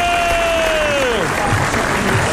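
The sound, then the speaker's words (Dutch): Crowd applause for a group of women at a lively party, a steady wash of clapping that holds at one level, with a falling whistle-like tone sliding down over the first second. “Applaus voor de dames!”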